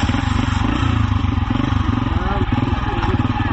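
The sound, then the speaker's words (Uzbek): A motorcycle engine runs loud and steady the whole time, a dense, rough, mid-pitched drone with no break. “Ana shundan keyin tasvirdagi Islomiy davlat jangarisi qari kurd kampirini mototsikliga o'tkazib olib ketadi.”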